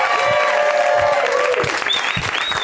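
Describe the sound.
Audience applause welcomes a comedian to the stage, a dense, steady clatter of clapping hands that stays loud throughout.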